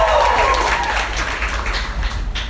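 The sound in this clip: Audience applause at a live comedy club show, a dense burst of many hands clapping that starts strong and gradually thins toward the end.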